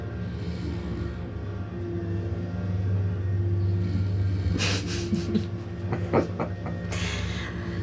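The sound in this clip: A vehicle drives across flat ice toward the Antarctic coast, producing a steady, loud low engine rumble throughout. A few brief crackling and knocking sounds break in over the drone later on.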